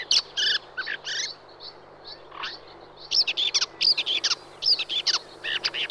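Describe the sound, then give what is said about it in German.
Red-backed shrike calls, a small songbird of thorny grazed scrubland, giving many short, sharp chirps and scratchy notes in quick bursts separated by brief pauses, with no talk. “Und der Neuntöter ist so ein Beispiel für eine Art, die ganz intensiv an Beweidung angepasst ist.”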